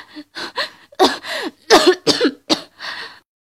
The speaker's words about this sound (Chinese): 他猛地坐起来，而后克制不住身体的不适，捂着胸口咳了几声。